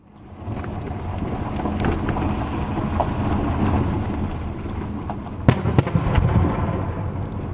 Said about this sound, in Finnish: Kun ajamme keskisyyrialaiseen Palmyran rauniokaupunkiin, vieressä räjähtää. Täällä räjähdykset tulevat suurimmaksi osaksi raivaustöistä.